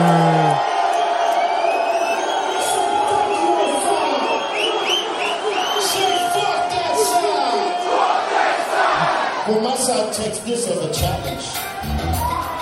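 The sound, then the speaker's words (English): A loud crowd at a concert shouts, whoops and cheers continuously, with many voices overlapping in a dense roar throughout. “You hear that? Yeah. You hear that? A lot of dudes. No, it's a lot of people. There are a lot of dudes. They're loud.”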